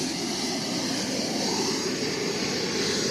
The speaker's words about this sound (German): wir haben bereits 400 Grad in der Turbine drin. Jetzt ist das Gas dazugekommen, jetzt fährt das Ganze rauf. Auf etwa 60'000 Umdrehungen.